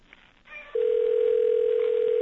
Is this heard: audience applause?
no